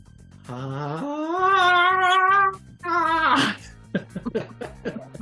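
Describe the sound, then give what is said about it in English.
A voice imitating a high-pitched girly scream of a gangster stabbed in the thigh during a tabletop role-playing game fight: a long, wavering, loud shriek, then a second shorter squeal and a few choppy vocal bursts. “and just starts to let out a girly scream”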